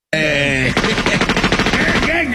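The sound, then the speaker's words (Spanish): Gunshots fire in a fast run of many sharp, evenly spaced cracks that follow a brief held voice and then stop abruptly. “¿Por qué estás tirando balazos?”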